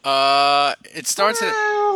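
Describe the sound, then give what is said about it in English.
A Bengal cat lets out one long, loud, steady-pitched yowl that stops abruptly, followed by people talking. “How do you live with that cat? How do you live with that cat? Yeah, I can't. This is ridiculous. I can't live 1 hour. 1 hour on Monday. Does it do that while you're sleeping?”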